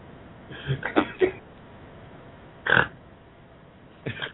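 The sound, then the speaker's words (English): A person snorting: a few short, harsh nasal snorts with a grunting, pig-like rasp, the first a quick cluster and then two separate bursts after pauses. “So, did you just snort? Yeah, he snorted.”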